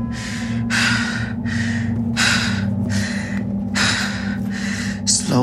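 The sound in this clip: Heavy, steadying breaths, a rhythmic series of loud airy inhales and exhales, some sharp like gasps, repeating over a constant low hum with no talk.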